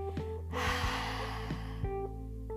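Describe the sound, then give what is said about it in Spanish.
A deep exhale released after holding the breath comes as a breathy whoosh lasting about a second. It sits over soft, sustained musical tones. “Sostén el aire dibujando una gran sonrisa en tu rostro. Y exhala.”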